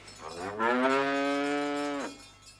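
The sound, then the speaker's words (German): A cow moos on a farm in the countryside on a summer evening, giving one long, loud, low call that holds steady and then drops away at the end. “Kühe. Das auch noch. Eben auf dem Lande.”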